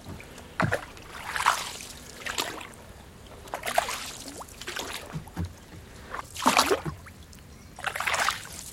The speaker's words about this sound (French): Il y a une technique particulière de la pelle. Ah oui. On la met dans l'eau, on pousse, et quand on la retire, on se sert